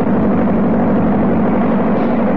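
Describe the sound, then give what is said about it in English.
A motor vehicle engine runs on a road, giving a steady, low, rumbling drone that holds an even level without breaks. “Noisy, smelly, vehicle contraptions ought to be prohibited by law.”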